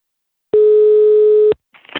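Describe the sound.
One steady telephone ringback tone on an outgoing call, lasting about a second, plain and even in pitch with no voices over it.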